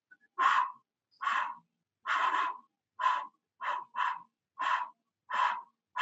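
A person panting rapidly to demonstrate tired breathing, producing a steady run of short, breathy puffs of air. The puffs are evenly spaced and fairly loud, with no talk over them.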